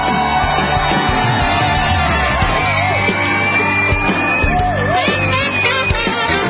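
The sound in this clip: An audience cheers as a guest actor is welcomed onto a stage, with a loud, continuous wash of yelling, whoops and shouts that stays dense and unbroken throughout.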